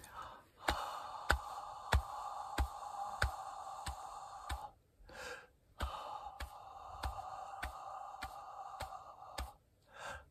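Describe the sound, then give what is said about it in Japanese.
A breathing exercise during a vocal lesson: air hisses out through the teeth over seven steady beats, then a quick sharp gasp fills the eighth. A regular ticking beat runs throughout, and the long exhale and gasp happen twice. “口は歯の形で息を7拍かけて吐き、8拍目に一息で吸います。”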